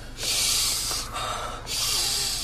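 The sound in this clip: Deep sniffing breaths smelling spice, two long, airy, hissing inhalations separated by a brief pause, alone without talk.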